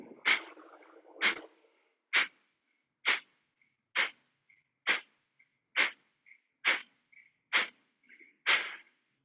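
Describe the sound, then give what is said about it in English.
Rapid abdominal breath pumping during a breathing exercise: ten sharp, forceful nasal bursts at a steady pace of roughly one per second, each short and breathy, with no talk between them. “Second round, inhale, 10 pumpings, abdomen only, begin.”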